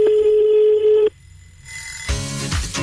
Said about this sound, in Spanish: estamos llamando a otro oyente